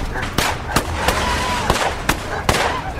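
Gunshots tear through a bedroom in a burst of sharp cracks, about seven distinct reports spread irregularly over three seconds above a steady, noisy background.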